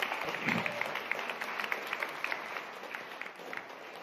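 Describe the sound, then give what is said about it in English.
Audience applause fills a church service as a woman is welcomed to the stage to give a short reflection: steady, dense clapping at moderate volume, with no voices. “so please do put your hands together as we welcome her to the stage”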